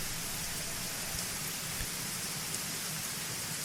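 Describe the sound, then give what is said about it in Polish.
Heavy rain pouring down in a dense, steady, even hiss with no letup, and a brief faint low thump underneath. “Gdzieś w oddali walnął piorun. Leje jak z cebra.”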